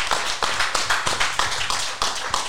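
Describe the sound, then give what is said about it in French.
Audience applause at a public gathering, heard as brisk, fairly regular hand claps that form a steady patter at an even volume. No voices can be heard over the clapping. “Ouais, ça s'applaudit.”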